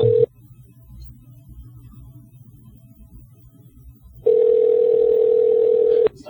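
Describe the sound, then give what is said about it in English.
Telephone tones as a call is placed from a radio studio: a brief steady tone breaks off, then a long quiet gap follows before a second sustained tone that lasts almost two seconds and cuts off. “We're gonna call him from here. All right. We will initiate the call from here.”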